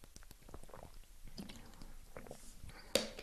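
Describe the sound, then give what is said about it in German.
Faint wet mouth sounds as someone takes a quick sip of a drink: soft clicks and swallowing noises over a low background hiss, with one sharper click near the end. “Ich trinke mal kurz einen Schluck.”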